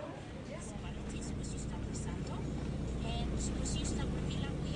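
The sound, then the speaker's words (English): A four-wheel-drive vehicle's engine drones steadily as it climbs the steep, very rough road up to Edetap village, a continuous rumbling roar with rattling noise over it. “The road up to Edetap village is four-wheel drive territory. Luckily, the vehicle we're in has no problem getting up the steep, very rough road.”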